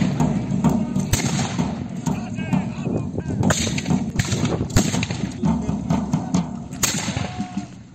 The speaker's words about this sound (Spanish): Es el sonido de las armas en una batalla, en una recreación histórica. Este fin de semana sonará a buen seguro en San Lorenzo del Escorial, que viajará al pasado, concretamente al siglo XIX, durante la Guerra de la Independencia